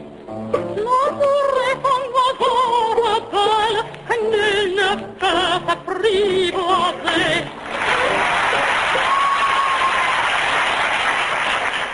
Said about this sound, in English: The audience reaction indicator shows the winner tonight to be the tenor, George Sawtell.